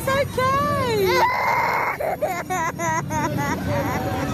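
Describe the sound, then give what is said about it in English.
Children crying and screaming in terror at a Santa parade where demon helpers appear: shrill, wavering wails with rising and falling pitch rise over a steady, noisy background without pause. “There are crying children, including my own. That's a lot of screaming in terror for a Santa parade.”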